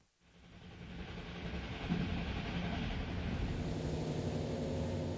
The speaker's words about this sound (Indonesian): Kereta api terus saja melaju.